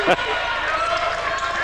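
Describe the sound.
A single basketball bounce at a high school game thumps at the start, then gives way to steady crowd noise and talking.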